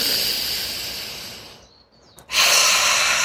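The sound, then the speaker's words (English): Deep breath in through the nose during a guided breathing exercise: a long, airy breath that slowly fades, a brief quiet gap, then another strong breath sound starting and holding to the end. “take some deep and grounding breaths. Go in through the nose,”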